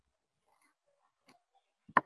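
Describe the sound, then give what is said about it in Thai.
A single sharp snip as plant leaves are cut for dyeing, preceded by a few faint soft ticks in near silence. “เราก็จะตัดใบเลยค่ะอันนี้อาจารย์ก็คัดใบไว้เรียบร้อยแล้วนะคะ”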